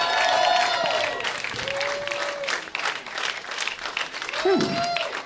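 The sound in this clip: Roast battle audience in Chicago applauding, cheering and whistling after a round, steady clapping throughout with a host talking over the noise.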